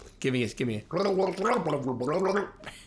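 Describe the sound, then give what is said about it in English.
A person gargling while trying to talk, giving a bubbly, wobbling voiced gurgle in two short bursts followed by a longer continuous stretch, fairly loud. “Dude, what if we did the whole podcast today gargling? Okay, let's try it.”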